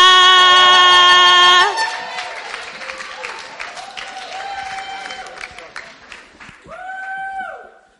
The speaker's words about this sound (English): Then please put your hands together and let's welcome Sela.